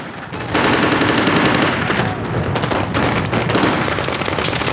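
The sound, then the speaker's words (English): Loud gunfire exchange between a gunman and Marines: dense, rapid bursts of shots that run almost without pause, with many overlapping reports and no clear gaps. “a man fires at the Marines. The Marines return fire.”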